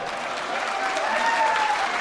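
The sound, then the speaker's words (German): Sustained applause from the members of a political party gathered in a hall of a Bern hotel: a dense, steady clatter of many hands clapping that swells slightly partway through. “Er ist der Einzige, der die SVP-Basis im Hodlersaal vom Hotel Kreuz heute zum Jubeln gebracht hat, der Bundesrat Ueli Maurer”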